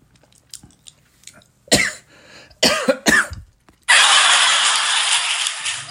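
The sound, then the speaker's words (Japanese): Coughing after choking on spicy food that was inhaled too quickly, heard as a few harsh, abrupt bursts with short pauses between them, without speech. “一気に吸い込んじゃったから最初。舐めてかかっちゃって。あ、むせるぐらいあるな。”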